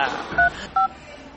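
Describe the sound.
Telephone number being dialed: two short, clear keypad tones, evenly spaced, over faint background noise.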